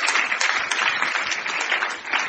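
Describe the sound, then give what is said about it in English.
Audience applause during a church sermon: a dense, steady patter of many hands clapping at an even level, brief and with no voices over it. “Clap it, then clap. Clap, clap.”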